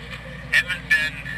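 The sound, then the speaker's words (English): A car engine drones low and steady in the background while the driver heads to work; people talk over the engine. “And the sound you're hearing in the background is me driving to work.”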